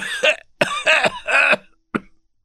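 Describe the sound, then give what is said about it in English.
A man coughing: several harsh, throaty coughs in quick succession, then a short pause and a final brief, isolated cough. “He sat down heavily and coughed. The old men nodded and coughed.”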